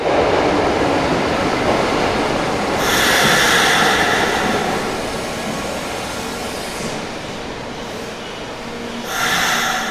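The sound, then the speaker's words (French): A metro train stands in a station with a steady, noisy rumble and hiss, broken by bursts of high, screeching wheel squeal near the middle and again at the end. “Tout le monde sort de la rame du métro dans les bruits habituels.”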